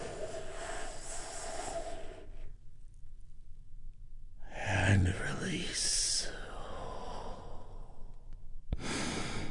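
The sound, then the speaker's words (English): A deep breath is drawn in and let out during a guided relaxation session. After a short silence comes a breathy rush and a long, sighing exhale, with a calm voice speaking before and after. “We do this by taking a big, deep, healing breath all together. Here we go”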